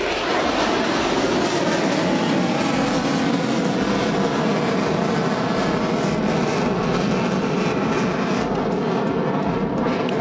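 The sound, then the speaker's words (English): Two F-16 fighter jets bank to the right overhead, a dense, steady roar of jet noise that fills the whole stretch at an even loudness with no voices over it. “So you can just hear in the background, we've got two F-16s banking to the right there.”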